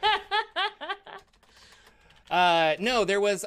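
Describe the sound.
A brief, faint run of computer keyboard typing, done to search Google, sits between bursts of talk and laughter.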